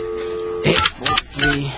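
A telephone number is dialed: a steady, even tone gives way to a few short, sharp bursts of keypad sound.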